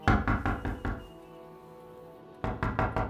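Knocking on a door comes in two bursts: about four firm knocks, a pause, then about three more, solid and hollow-sounding.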